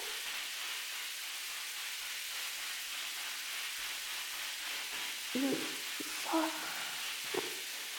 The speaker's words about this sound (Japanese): 上の方は洗えたから、次は腰の方を洗うね。